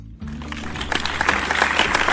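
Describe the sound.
Studio audience applause welcoming a guest on a talk show: a dense wash of many hands clapping that starts abruptly and swells slightly fuller, continuing steadily to the end.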